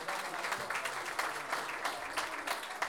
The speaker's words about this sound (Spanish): Y por supuesto que pedimos un aplauso para los que no quedaron, ¿cierto?